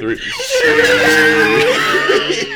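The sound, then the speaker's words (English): A strained vocal screech like a screamo scream, sustained loudly for about two seconds with a wavering, harmonic-rich pitch. “Wait, that was a screech. That was like a screamo.”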